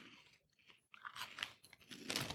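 Crunching of corn-on-the-cob flavored puff snacks eaten two at a time: a few quiet, crisp bites and chewing crunches with brief pauses between them.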